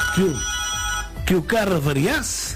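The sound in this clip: A telephone rings with steady tonal ringing that overlaps voices talking throughout.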